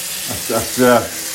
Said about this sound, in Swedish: Men nu hör ni att jag spolar upp ett bad.